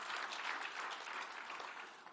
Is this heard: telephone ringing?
no